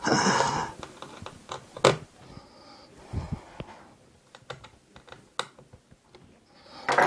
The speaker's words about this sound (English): Next thing is to position the new screen in place and put some screws in.